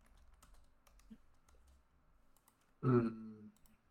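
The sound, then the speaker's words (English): Faint typing on a computer keyboard, a loose scatter of light, irregular clicks, with a brief louder tonal sound cutting in near the end. “I typed investigate.”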